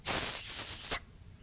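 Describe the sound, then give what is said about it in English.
A serpent's single sustained hiss, a loud breathy rush of noise heard alone for about a second before it cuts off abruptly. “The serpent who didn't like the saint in the least, and small blame to him for that, began to hiss.”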